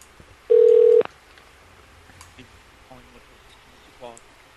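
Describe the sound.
A keypad tone sounds as 3 is pressed on a hotel phone menu: one loud, steady electronic tone of about half a second that cuts off sharply, followed by faint scattered sounds.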